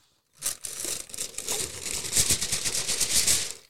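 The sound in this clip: Baking paper pulled from its packaging, a roll, gives off loud crinkling and tearing. The dense crackle runs continuously after a brief silence, with sharp snaps scattered through it.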